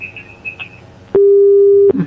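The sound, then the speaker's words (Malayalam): A telephone busy tone sounds after a call is cut off: one steady mid-pitched beep lasting under a second, loud and clear, following a stretch of faint low murmur. “Phone കട്ടായി പോയി.”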